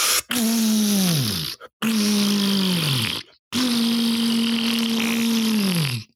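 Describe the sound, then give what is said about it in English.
A voice imitating the sound of defecating on a toilet: three long, strained, raspy groans, each holding a steady pitch before dropping away at its end, separated by short pauses. “That was the sound of me shitting. I mean, not that. That was my mouth doing an impression of my shit from today.”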